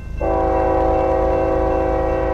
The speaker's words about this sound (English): And trains are going by carrying oil.